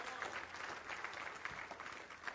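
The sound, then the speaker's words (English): A church audience claps in praise during a sermon, a faint, continuous patter of many hands with small swells in level throughout. “Go ahead and clap for him. Amen. Clap for him.”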